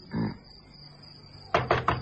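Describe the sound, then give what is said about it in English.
Knocking on the door of a flat: a short run of several sharp, firm raps arrives together after a quiet stretch with a low hum. “They let a few minutes elapse before going to the door. Do we knock”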